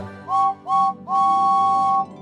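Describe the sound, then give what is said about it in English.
A steam engine whistle, said to belong to a red toy engine numbered 5. Two short, clear toots are followed by one long, steady blast, fairly loud over a low background hum. “he has a whistle that sounds like this.”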